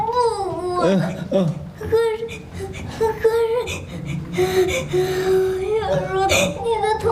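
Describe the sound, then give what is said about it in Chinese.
A child cries and whimpers without pause, with wavering, high sobbing wails and shaky breaths rising and falling throughout. “别哭了，小叔没事儿啊。”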